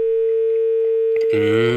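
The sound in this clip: A telephone tone sounds after a phone caller disconnects: one steady, unbroken tone at a single pitch, fairly loud and held throughout. A voice begins over it near the end.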